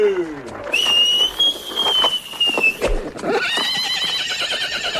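A carriage driver's whistle and a team of horses setting off: a long, steady, high whistled note with hoof clatter, then whinnying and busy hoof sounds.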